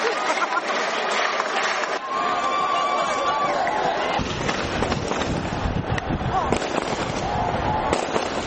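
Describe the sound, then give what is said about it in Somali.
Celebratory gunfire shot into the air by government soldiers in Mogadishu after a presidential election, many sharp cracks and pops in quick succession over crowd voices and wind noise. “Waxaana jiha walba laga maqlay rasaas taageer ah oo ay kor u ridayeen ciidamada dawladda.”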